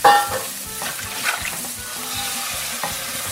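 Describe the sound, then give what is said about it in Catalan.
Kitchen cooking sounds: food frying in a continuous sizzling hiss, with stirring scrapes and occasional soft knocks of utensils against the pan throughout. “Vinga, posa'm una mica de so de cuina de fons.”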